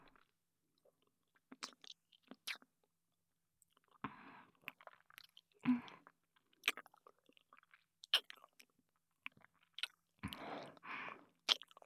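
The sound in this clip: Someone chews food while eating, with soft wet smacks and clicks in an irregular pattern and a few louder, crunchier bursts of mastication.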